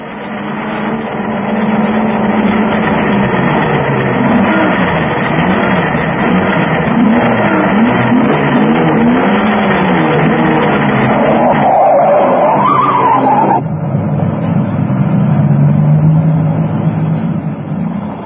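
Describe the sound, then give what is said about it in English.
Drag race cars accelerating on a street in Lawrence, Kansas, their engines droning and revving loudly and continuously, with no break in the sound. “As you can see, they try to keep their drag races under the posted speed limit in Lawrence.”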